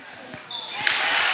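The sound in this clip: A basketball is bounced before a free throw at a game, giving several soft, low thuds under a steady crowd murmur that grows louder halfway through.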